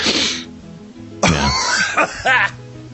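Harsh, wet coughing and throat clearing as a person hacks up loosened phlegm, a few loud rasping bursts separated by short pauses.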